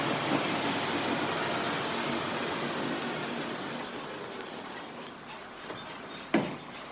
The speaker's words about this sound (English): The next morning, a blue police academy bus pulls up to a gate.